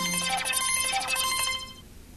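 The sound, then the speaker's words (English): A smartphone new-message alert tone on a hospital physician's phone running paging software: a bright, ringing chime of bell-like tones that holds for over a second and then decays into quiet. “So that just tells me I have a new message.”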